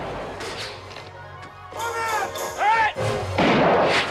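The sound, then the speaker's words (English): Gunfire as soldiers shoot at a wooden house, with bullets ripping through its wooden walls. A few sharp cracks are followed by heavier crashing impacts that grow louder toward the end. “More soldiers appear and return fire, their bullets ripping through the wooden walls of the house.”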